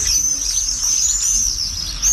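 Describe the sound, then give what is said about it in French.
Common swift calls form a shrill, high-pitched, continuous screaming trill. It stays loud and fairly even throughout, with no talking. “Et ensuite, donc, on a le martinet noir. Tout noir, plus grand, des grandes ailes. C'est un oiseau qui se pose jamais.”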